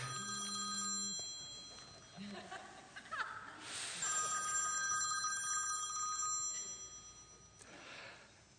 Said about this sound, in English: Caller ID says God. I'm going to send him to voicemail.